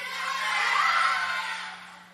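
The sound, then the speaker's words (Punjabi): Children loudly shout the Sikh Fateh greeting together in a gurdwara, a dense, bright burst of many young voices that swells and then tapers away over about two seconds. “ਜਿਹੜਾ ਤੁਸੀਂ ਰੌਲਾ ਪਾਉਂਦੇ ਹੋ ਨਾ ਫਤਿਹ, ਇਹ ਵੀ ਬਹੁਤ ਗਲਤ ਆ।”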